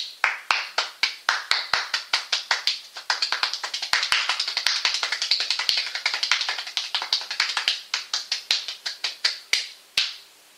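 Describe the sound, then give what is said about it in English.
Hand clapping in a rhythm lesson, hands held at roughly a 45-degree angle: many sharp, crisp claps in a steady groove, packed more tightly in the middle before spacing out again. “So when you do that, you want to clap, then you want to reverse it until you just start getting into a groove.”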